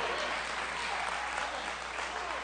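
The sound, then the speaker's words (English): Audience clapping during a church sermon: dense, steady applause from many hands, filling the whole stretch at an even level without breaks. “That's better preaching than I'm getting clapping, but that's good stuff right there.”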